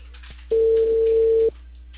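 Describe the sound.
A telephone ringback tone sounds as a call goes unanswered: a single steady, mid-pitched tone lasting about one second, rising out of a faint low hum and then cutting off.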